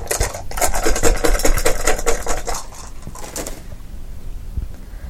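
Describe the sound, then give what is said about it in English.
Dice being rolled, a dense run of sharp rattling, clattering clicks lasting about three seconds before it thins out and fades to near quiet, with no voices over it. “Let's see, which dice are not going to be jerks to me today? Let's find out.”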